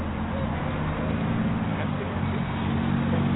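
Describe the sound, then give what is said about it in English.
Car traffic on a road: a steady, droning engine and road rumble with a low hum, holding an even loudness throughout. “Jesus, traffic is horrible. Watch out.”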